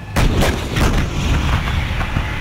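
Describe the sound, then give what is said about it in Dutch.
A howitzer firing in a war: a sharp, loud blast opens into a dense, rumbling roar, with a few further thuds punching through the sustained noise. “Dit is het geluid van een howitzer.”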